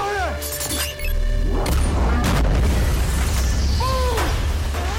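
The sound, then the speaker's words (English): Booming explosions and shattering debris as a building level is demolished in a film action scene, with concrete chunks raining down; a dense, continuous roar of blasts and crackling breakage stays loud throughout, with a brief dip near the start. “Explosions erupt as the level is completely demolished.”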